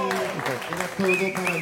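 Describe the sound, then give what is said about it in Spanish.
Audience applause on a television tribute show about actors: clapping from the crowd sits beneath a prominent voice for the whole brief moment. “Un aplauso para Carlos Guan.”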